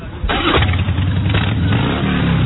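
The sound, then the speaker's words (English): A motorcycle engine revs, giving a loud, continuous, low rumble that holds steady across the whole clip with no talk over it. “we want to get some Dykes on bike sounds. Someone want to rev it for us?”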